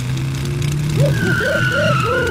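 A cartoon pickup truck engine hums low and steady as the vehicle drives up. A higher whine joins it, along with a few wobbling, chirping revs.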